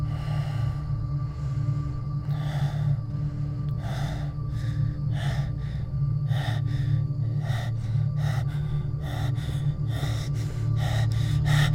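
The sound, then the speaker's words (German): Panicked gasping breaths, many sharp, rapid inhales in an uneven rhythm over a steady low hum, with no talk. “Langsamer ausatmen. Achte auf meinen Atem. Wir atmen zusammen.”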